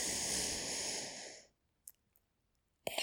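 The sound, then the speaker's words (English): A long, deep breath drawn in as a steady airy rush for about a second and a half. Near silence follows, with a couple of faint clicks before another breath begins. “Breathe in with me. Well, not now, because I just breathed out. Okay, starting now. Okay, in”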